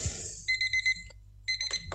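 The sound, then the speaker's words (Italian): An alarm clock rings in short bursts of high electronic beeps, a quick run of pulses, a pause, then another burst. “Ma che cazzo è? Perché sta suonando sta sveglia?”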